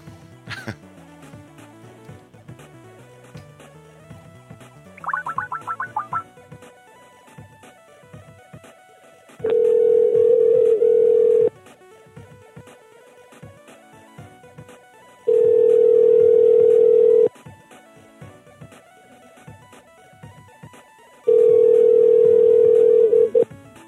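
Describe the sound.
Ringback tones on a phone call: three long, steady, mid-pitched tones, each about two seconds, separated by pauses of faint noise. A short buzzy burst comes earlier.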